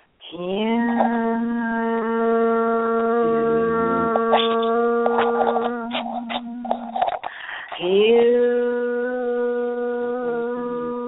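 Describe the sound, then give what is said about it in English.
A single voice chants the word hue as a meditation mantra in three long, steady, low-pitched tones, each held for several seconds with short pauses between them. “what we're going to do is chant the word hue that I just mentioned. And it sounds like this.”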